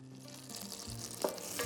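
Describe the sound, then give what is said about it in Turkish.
Butter melts and sizzles in a pan as cooking for Ankara tava begins, a faint, steady frying hiss with two brief louder ticks near the end. “İlk etapta tereyağıyla başlıyoruz. Tereyağların güzelce erimesi lazım.”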